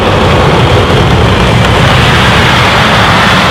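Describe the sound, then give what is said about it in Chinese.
An M1 Abrams tank drives and corners on slippery snow, producing a loud, dense, unbroken roar of engine and track noise that holds steady throughout with no talk. “即便是在湿滑的雪地过弯，M1 坦克也是游刃有余。”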